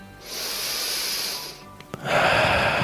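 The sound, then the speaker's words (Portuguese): A deep breath during a guided breathing exercise: a long, airy inhale of over a second, a short pause, then a stronger, breathy exhale that continues to the end. “Antes disso, respira fundo. Solta o ar.”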